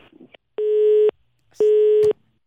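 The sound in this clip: A busy tone after a dropped phone call: two steady, evenly pitched beeps, each about half a second long, split by a short gap, loud and clear with no voices.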